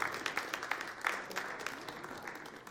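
An audience applauds to welcome someone as he comes down to the front, a faint, steady patter of many hands clapping that thins slightly toward the end.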